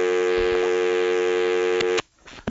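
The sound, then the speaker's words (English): A steady telephone tone after a call disconnected, holding loud and unbroken for about two seconds before cutting off abruptly into quiet background noise. “Oh, I thought I got hung up on. No, he just, his phone disconnected.”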